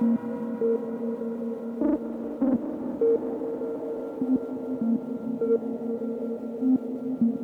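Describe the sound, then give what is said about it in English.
A synthesizer tone like a square wave, hollow and buzzy, steps through a repeating pattern of short notes in a steady rhythm, with no voices. “It's almost more like a square wave sound.”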